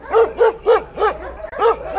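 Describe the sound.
A dog barks in a quick, evenly spaced series of loud, sharp barks that repeat steadily, with no other sound around them.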